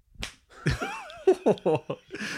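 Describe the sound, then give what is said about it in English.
A voice imitates an egg being smashed against the sharp corner of an icy granite worktop: a sharp smacking burst, then a few squelchy, wobbling vocal sounds in quick succession. “Grabbing one of them, she threw it forcefully against the sharp corner of the icy granite surface, skillfully separating the creamy, sticky white stuff from the yolk.”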